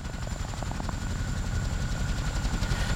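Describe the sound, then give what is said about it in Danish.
Rotor chop of a Huey helicopter with a two-blade rotor, a loud, steady throbbing drone with fast low pulses that carries unbroken through the whole clip, with no voices. “Jamen, det er en Huey. Det er, fordi den kun har to rotorer.”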